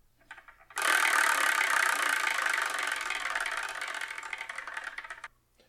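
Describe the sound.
A numbered wheel spins to pick a manga, giving off a dense, loud rattle of ticking clicks. The clicks slow gradually over a few seconds and then stop.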